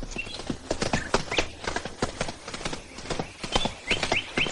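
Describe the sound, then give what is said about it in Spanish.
Horses gallop along a country road outside Córdoba, their hooves striking in rapid, irregular clip-clop beats that keep on throughout. “Luego el hombre y la mujer cabalgan saliendo de Córdoba. Curro y los demás los siguen a una distancia prudencial. Por el camino del campo, Araceli cabalga a unos metros del hombre.”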